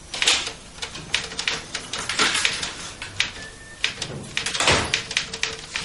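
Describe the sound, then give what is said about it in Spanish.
Typewriter typing in an apartment, with rapid, irregular keystrokes clattering continuously and at a fairly even level throughout, alone without talk. “Mientras, en su piso, Beas está escribiendo una máquina cuando David entra.”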